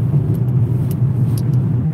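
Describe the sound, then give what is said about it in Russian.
A car drives home through Moscow's city streets at night with a steady, low engine and road rumble, dotted with faint light ticks and no talking. “еще раз показываю вам заодно Москву. Еду обратно домой.”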